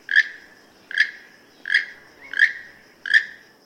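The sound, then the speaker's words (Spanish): Five harsh, croaking calls from a keel-billed toucan, evenly spaced roughly every 0.7 seconds, each a short raspy burst with nothing else around them. “Su canto es parte del ambiente en ruinas arqueológicas mayas como las de Calakmul en México.”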